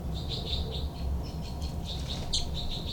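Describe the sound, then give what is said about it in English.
Two birds fight with threat calls, giving many short, high, sharp chirps in a rapid, irregular series over a low, steady background hum. “Both birds fight by threat call”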